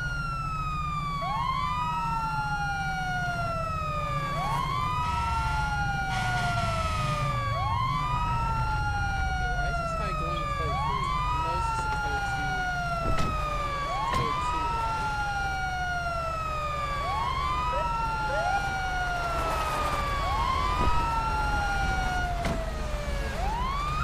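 Police siren in the video game Grand Theft Auto V (FiveM) wails loud and continuous, its pitch sweeping up and down in repeated cycles of roughly three seconds, with no talk over it.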